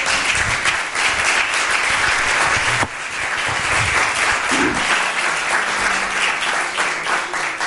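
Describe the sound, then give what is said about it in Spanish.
Sustained applause from an audience at the end of a presentation: dense, continuous clapping fills the whole stretch, briefly thinning once partway before surging back at full strength. “dame un aplauso”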